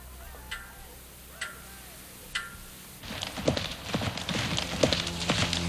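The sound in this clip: Hooves of a white horse being ridden into the courtyard of a large house: three sparse, crisp clops, then a louder, denser clatter of many hoofbeats.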